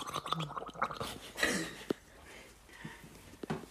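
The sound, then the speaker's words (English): Wet swishing and gargling of water moving around inside a mouth, heard as a few short, soft sloshing bursts with quiet pauses between them. “this is what water swishing around sounds like.”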